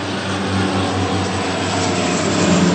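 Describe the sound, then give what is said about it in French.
A loud, steady engine drone from aircraft fighting a forest fire in the Landes, with Canadair water-bomber planes and a Chinook heavy helicopter. The drone holds constant throughout with no talk. “d'importants moyens sont déployés. 4 canadairs et un hélicoptère Chinook.”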